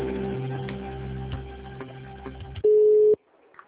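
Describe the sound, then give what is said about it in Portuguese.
A telephone line tone sounds while a call is being transferred. After a stretch of faint, muffled line noise, a single loud, flat beep holds steady for about half a second, then the line goes nearly quiet. “Eu vou transferir no RH, só um minuto. Obrigada. Ligação.”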